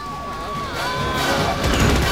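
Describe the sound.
Gunfire and chaotic action sound from a film battle as a soldier shoots at a giant bug: a dense, loud, continuous roar of noise with a sliding tone running through it.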